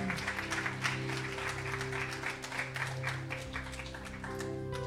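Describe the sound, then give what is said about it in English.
A church audience claps together for about five seconds, a dense and steady patter of hand claps over low sustained tones, with no talk heard. “you can give the Lord a hand clap for that.”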